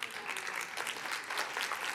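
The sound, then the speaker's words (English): An audience claps in response to a speaker's point. The applause is faint but dense and steady, with a few brief swells. “I hope you're clapping because I'm right, not because you need marriage counseling.”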